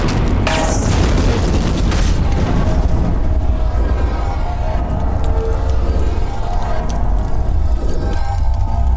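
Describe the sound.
Oxygen cylinders explode after being shot, making a loud, sustained roaring rumble of dense noise that keeps going without a break, with sharper bursts and crackles near the start.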